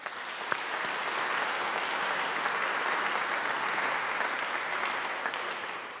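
Audience applause welcoming two actors and a pianist to a Schumann reading: dense, even clapping sustained for about six seconds with no voices over it.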